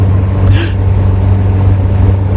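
A car engine drones steadily while driving along a winding road, a continuous low hum with no clear breaks.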